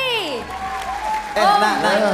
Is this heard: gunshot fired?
no

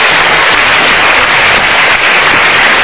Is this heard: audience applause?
yes

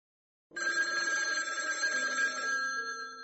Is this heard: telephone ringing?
yes

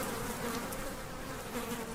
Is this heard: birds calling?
no

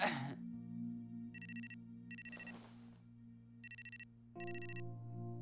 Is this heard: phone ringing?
yes

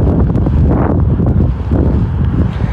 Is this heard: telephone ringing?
no

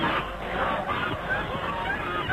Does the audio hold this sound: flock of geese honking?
yes

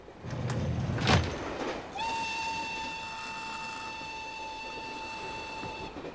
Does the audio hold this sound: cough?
no

